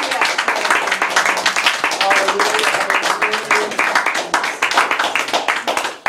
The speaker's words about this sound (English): Can we give the Lord a hand clap for the word tonight?